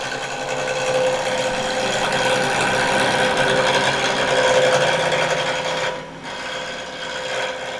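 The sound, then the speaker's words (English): Power tools run in the exhibits workshop at the Amazeum in Bentonville, a steady grinding, rasping machine drone with a thin tonal whine that dips briefly near the end, then picks up again. “Let's start our show today by going into the workshop at the Amazeum in Bentonville.”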